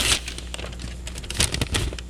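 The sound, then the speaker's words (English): Paper crinkles and tears as an envelope holding a report card is opened, a few quiet rustling bursts with sharper rips near the start and toward the end, with no talk. “I want to open this with you. It looks like your report card.”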